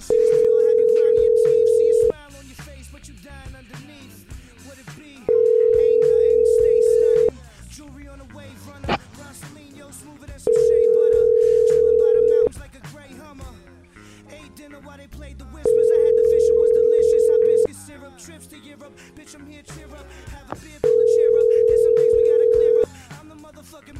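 Telephone ringing tone as a call is placed again: five steady, identical mid-pitched tones, each about two seconds long and evenly spaced by roughly three-second gaps, with faint clicks and murmurs between them.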